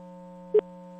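A telephone ringing tone hums steadily on an unanswered call, a constant electronic buzz with one short, brighter blip in the middle.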